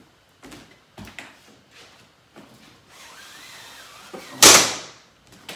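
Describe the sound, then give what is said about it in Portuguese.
Curtain being drawn shut: a few scattered knocks and rustles, a soft sliding swish, then one loud scraping rush near the end before it falls quiet. “Fecha a cortina, né? Estão falando aqui. Eu vou fechar, peraí.”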